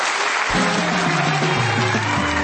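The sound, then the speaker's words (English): A studio audience applauds with dense, steady clapping throughout, while a stepped, descending musical tune plays over it from about half a second in. “Can you give them a round of applause?”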